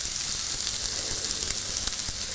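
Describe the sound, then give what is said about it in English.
Finely chopped shallots and garlic sizzle in a drizzle of oil in a very hot pan, a loud, steady frying hiss with small crackles and no voices. “another little drizzle of oil, and I'm gonna throw in my finely chopped shallots and garlic.”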